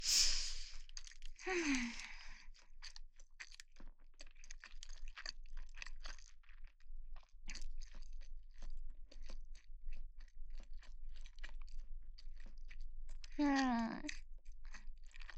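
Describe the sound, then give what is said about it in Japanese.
Chewing on a rice ball of plain white rice: many soft, wet mouth clicks and light crunches in a steady irregular stream, with a short voiced vocal sound near the start and another near the end. “おにぎりの具を先に全部食べちゃった。あ、これ何、白米だけ？いや、食べる。”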